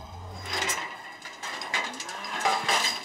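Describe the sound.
Calf mooing in a cattle barn during hoof trimming, heard as low bovine calls over a steady, noisy background with no talk.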